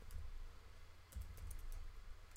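Typing on a computer keyboard: faint, irregular key clicks in short scattered bursts over a low background hum, with no talk.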